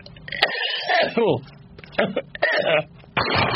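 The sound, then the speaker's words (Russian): A harsh, stubborn cough comes in several uneven bursts, mixed with throat-clearing and strained vocal noises. Each burst is loud and abrupt, with brief gaps between them. “простите, что делать, кашель непобедим.”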